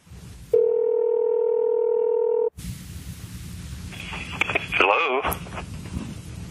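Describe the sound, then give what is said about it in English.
A telephone dial tone sounds steady and unbroken for about two seconds as a call is placed, then cuts off abruptly. A hissy open line with brief warbling tones follows. “they initiate the call after a brief review of what they're planning to say.”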